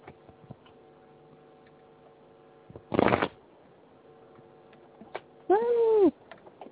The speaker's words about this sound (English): Hold on just a second. Dropping those cards. They're falling everywhere. They're jumping out.